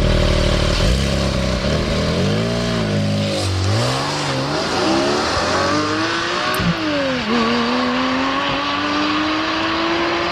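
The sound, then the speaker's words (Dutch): A Porsche 718 Cayman GT4 sports car drives away into the distance, its engine loud and revving hard. The pitch climbs repeatedly and drops back at a few gear changes, then rises in a long steady pull. No one speaks. “Ja, we gaan ook rijden met de Porsche 718 Cayman GT4.”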